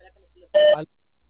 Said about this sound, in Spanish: Después del tono, al finalizar, marque la tecla numeral.